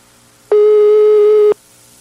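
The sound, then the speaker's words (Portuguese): A telephone ringback tone sounds as a call connects: one steady, even tone lasting about a second, starting and stopping abruptly, with quiet background hiss before and after and no talking. “Ele tá ligando aí? Oi, tá chamando, tá chamando.”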